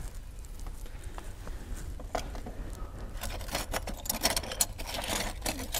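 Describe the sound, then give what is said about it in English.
A light bulb is dropped on the floor and breaks, giving a faint scatter of sharp clicks and glassy tinkles that thickens into a brief cluster. “So if I were to drop this bulb, it would, let's see if I have a, there we go.”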